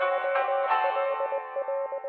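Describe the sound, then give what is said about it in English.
Electronic Morse code beeps spell out Cocktail College, recalling a 1990s text-message alert. Short, clipped tones pulse in an uneven rhythm over a sustained, echoing synthetic chord. “that sound you can hear right now, that's not a 1990s text message you're receiving. It's the Morse code for Cocktail College, which is, of course, brought to you by the VinePair Podcast Network.”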